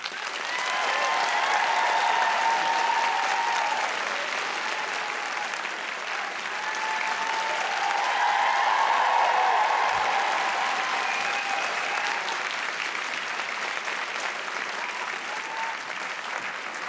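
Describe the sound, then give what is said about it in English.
Audience applause welcoming Michael Palin onstage at a Palladium book event, a sustained, even roar of clapping that lasts about seventeen seconds and swells slightly near the middle before settling. “please give a warm welcome to Michael Palin.”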